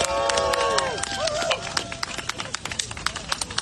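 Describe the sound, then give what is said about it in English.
Applause from an audience welcoming a speaker to the stage at a peace rally in Washington: many dense, rapid claps with crowd voices mixed in, fairly loud throughout. “I want you to join me in welcoming Erica Keynes from the Black Alliance for Peace and the Ujima People's Party. Give her a hand as she comes.”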